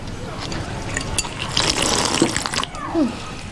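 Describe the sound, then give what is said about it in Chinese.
Running tap water at a sink as hands are washed, a steady hiss of splashing water lasting throughout, with brief louder splashes and a couple of short squeaky tones near the end. “你洗手之后能不能轻点啊？你多少年了都改不过来。”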